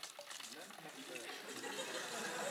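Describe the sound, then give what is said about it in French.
Water spilling and splashing onto a floor: a continuous, broad rushing hiss that carries on through the whole stretch and grows slightly louder toward the end. “désolé pour le ménage, mais c'est que de l'eau.”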